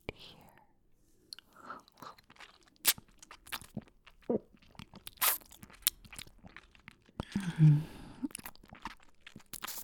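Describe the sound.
Crunching bites of a vampire sinking into a victim, a run of irregular crisp crunches and chewing noises, soft at first, then denser, with a heavier burst of wet crunching near the end.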